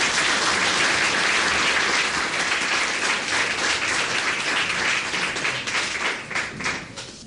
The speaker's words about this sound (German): Applaus